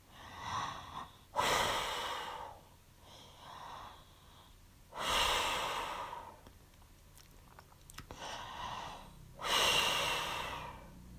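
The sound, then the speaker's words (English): Slow, deep breathing, with three full cycles: a softer breathy intake followed each time by a louder, longer rush of exhaled air. The pauses between cycles are quiet, and no voices are heard. “Breathe in and out nice and slowly. Nice big deep breath.”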